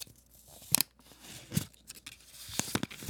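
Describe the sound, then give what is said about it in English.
Tape peeled off and a package unwrapped, with a few sharp tearing and crinkling bursts separated by quieter rustling and handling. “I'm now going to unwrap it.”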